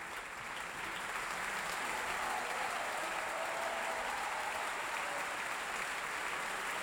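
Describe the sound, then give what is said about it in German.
Steady audience applause at an opera performance: a dense, even wash of many hands clapping that holds at constant loudness for several seconds, with no voices standing out. “Verzeihung, erst dieser Applaus gilt nun Roberto Frontali in der Rolle des Missionär.”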